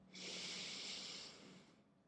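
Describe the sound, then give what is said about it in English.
One long, deep breath drawn in through the nose or mouth during a guided relaxation. It is a soft, breathy hiss lasting over a second, then fading gently. “Let's just take a big, deep breath in.”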